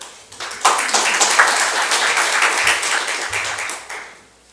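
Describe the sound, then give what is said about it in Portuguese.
A round of applause from an audience honoring a friend, starting abruptly, staying dense and steady for a few seconds, then tapering off at the end. “Gostaria de ouvir a salva de palmas aí dos amigos ao Klebinho.”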